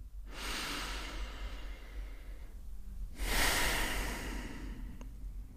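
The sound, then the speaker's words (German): Deep, slow breathing with long exhalations: two drawn-out airy rushes, each lasting a couple of seconds with a short pause between them. The second breath is louder, and no one speaks. “und noch einen dritten oder vierten tiefen Atemzug.”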